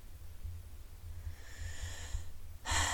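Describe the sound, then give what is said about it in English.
A deep breath is drawn in, soft and airy, building gradually. A stronger, louder rush of breath follows at the close. “Taking a nice deep breath in and letting go, releasing, forgiving”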